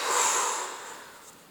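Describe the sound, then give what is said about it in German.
A long exhale follows a deep breath in through the nose during a standing breathing exercise. The breathy, airy rush starts strong and fades gradually over about a second and a half, with no talk. “Tief durch die Nase einatmen. Und lang ausatmen.”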